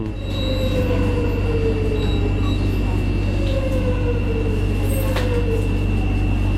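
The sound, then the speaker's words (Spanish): Metro train at a station, doors closing: a steady rumble of the carriage with thin high whines and squeals sliding in pitch, plus a sharp brief burst near the end. “Un cierre de metro. Ahí está, se abren las puertas, la gente entra.”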